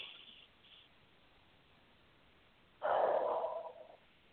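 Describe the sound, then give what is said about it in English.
A single deep breath, a long, breathy rush lasting under a second, rises out of near silence and stands loud against a faint background hiss. “Take a nice deep, deep breath.”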